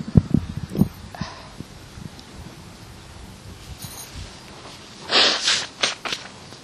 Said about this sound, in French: Pardon. Nez qui coule.